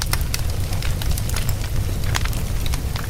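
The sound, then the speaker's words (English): Crackling fire with many sharp pops and snaps scattered over a dense, steady hiss, continuous and fairly loud throughout. “That's the crackle of a fire.”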